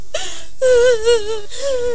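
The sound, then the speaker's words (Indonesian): Brief, tearful whimpering from someone grieving a fallen man, in a few short wavering moans. The voice dips and trembles in a thin, strained tone. “Pok, udah jangan nangis.”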